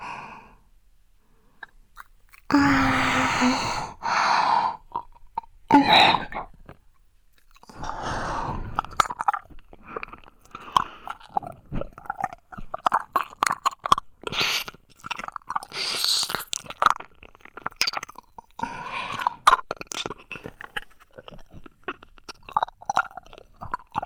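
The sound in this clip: Wet, crunchy chewing and biting of food, with many close, irregular bites and mouth smacks and the occasional breath, loud and without talk.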